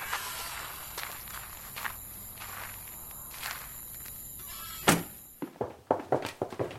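Footsteps of people walking inside in a radio drama. Soft, irregular steps lead to a single louder thump midway, followed by a quicker run of sharper steps at the end.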